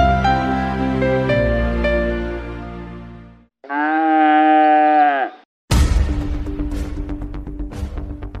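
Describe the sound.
A cow lowing on a farm, one drawn-out, steady, tonal moo set between stretches of other sound, with no talking.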